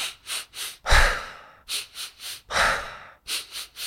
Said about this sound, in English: Energizer Bunny, which is a breath where you breathe 3 times in through the nose quite quickly and then sigh out through the mouth.